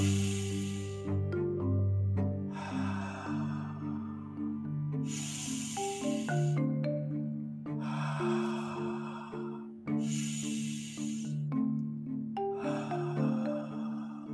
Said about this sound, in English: just inhale and exhale very slowly, steadily in your own space. 1 minute only. Okay, so it's going to give you an example. Very simple.